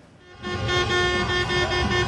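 Car horns blare in jammed Diyarbakır streets as football fans celebrate their club's promotion. The honking swells from a quieter start into a sustained, overlapping blare over traffic noise.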